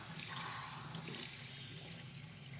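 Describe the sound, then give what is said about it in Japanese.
Water splashing as shampoo foam is rinsed from both sides of the head during a hair wash: a faint, steady rushing and sloshing stream that runs continuously. “洗い流してて、頭の両サイドもジャブジャブ洗い流して、”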